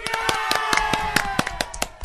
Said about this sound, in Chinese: 我们来为她鼓掌，好不好？